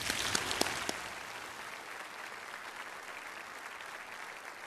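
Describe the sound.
Applause welcoming a speaker at an evening event in Bakersfield: a faint, even wash of many clapping hands lasts about five seconds, with a few sharper claps standing out near the start.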